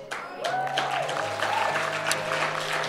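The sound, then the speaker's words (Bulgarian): A church audience claps during a sermon, a steady mass of hand claps holding an even level from start to finish. “О, ако ръкопляскаш, ръкопляскай като че го прави за Исус Христос.”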